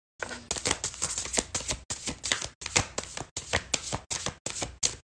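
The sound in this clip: A fresh deck of tarot cards is shuffled: many short, crisp rustling bursts follow in a quick, fairly even rhythm with tiny gaps between them, moderately soft and with no talk.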